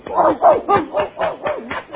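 A puppy dog barking: many short, sharp yips in a quick, even series, fairly loud and bright, continuing for the whole stretch.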